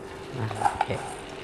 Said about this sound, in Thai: เดี๋ยวเราจะทำการทอดลงไปเยอะๆเลยนะครับทีนี้น้ำมันเราร้อนดีแล้วนะครับ